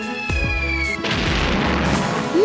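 Deep booming blasts from a ship's cannon fired at a small boat, heavy low thuds with rumbling tails over a steady, tonal background drone that stays loud throughout.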